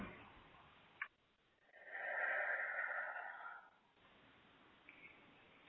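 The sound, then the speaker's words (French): A person draws one deep breath in. It is a soft, airy rush lasting about two seconds against a quiet background. “Voilà, pose les mains, prends une grande inspiration.”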